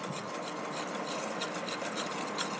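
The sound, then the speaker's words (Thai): Stirring of white oil blended with titanium and zinc oxide: a steady, continuous scraping rub with a fairly even level throughout, and no talking. “เนี่ยก็จะเป็นน้ำมันสีขาวแล้วนะคะใส่ตัวไทเทเนียมแล้วก็คนให้กระจายตัวกันดี”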